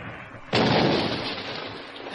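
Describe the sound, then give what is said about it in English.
A bomb explosion sound effect in a radio drama breaks out suddenly as a loud, broad blast. A long roaring rumble follows and slowly fades, with no voices. “That one was a bomb. Notice the difference, chum?”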